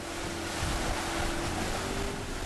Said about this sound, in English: Getting to Diego's village is spectacular. You take a boat across this huge volcanic lake. We're here.